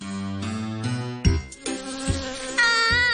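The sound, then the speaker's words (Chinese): A bee buzzing inside a house, a thin, high, droning whine that holds steady and swells louder toward the end, heard over other sustained sounds. “有只蜜蜂飞咗入屋啊！”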